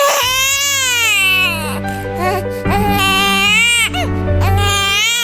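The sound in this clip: A newborn baby cries right after delivery, loud, continuous high wails broken by a few short breaths.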